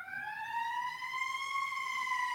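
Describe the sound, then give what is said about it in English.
A siren passes outside, sounding as a single sustained wailing tone with strong harmonics. It rises gently in pitch and then holds steady, faint and alone. “Sorry about the sirens.”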